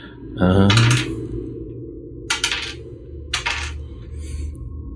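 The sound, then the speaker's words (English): Dice rolled onto a table for a damage roll in a tabletop roleplaying game: one loud clattering rattle, then a few shorter clinking bursts as the dice settle, over a low background hum. “Okay, so let us roll the damages. I didn't prep my dice.”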